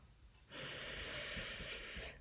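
A deep breath during a guided relaxation exercise: one long, slow, soft airy hiss of breathing, steady and faint, lasting well over a second.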